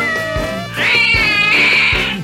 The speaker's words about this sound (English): Have you, by any chance, lost your kitty?